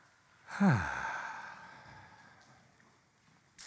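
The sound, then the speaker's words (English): A church audience taking a big deep breath together during a morning service, heard as one sudden, loud whooshing exhale that swells sharply and then slowly fades away, with no talking. “Would you all mind taking a big, deep breath with me this morning?”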